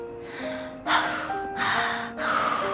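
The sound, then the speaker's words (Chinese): A few deep, loud breaths in succession, each a long breathy gust with brief gaps between, over soft sustained background music. “跳跳做了好几个深呼吸，”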